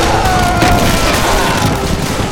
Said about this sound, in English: Suddenly, four shapes materialized out of the fog like crazed ghosts on a fierce rampage. Orange blossoms of flame exploding from the guns they held in their hands.